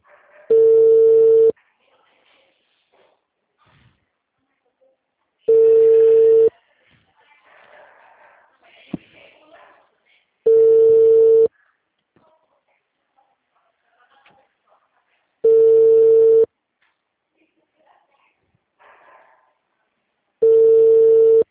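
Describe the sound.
Ringback tone of an outgoing telephone call that goes unanswered: five steady, mid-pitched beeps, each about a second long, spaced roughly five seconds apart, with faint noise in the gaps.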